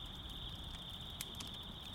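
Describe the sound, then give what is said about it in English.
Crickets chirp outdoors near a campfire in a faint, continuous high-pitched trill that stays steady throughout, with a few soft, brief clicks popping over it. “The scent will keep bugs away, although I haven't seen many around here, aside from these little crickets. They sound a bit like the campfire crackling away,”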